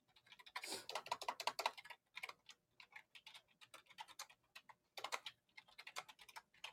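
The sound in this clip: Rapid typing on a computer keyboard: many quick, crisp key clicks in uneven bursts and short runs, with brief pauses between, and no voices.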